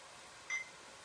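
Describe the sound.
A kitchen appliance gives a single short, high-pitched beep as its start button is pressed, soft against a faint steady background hiss.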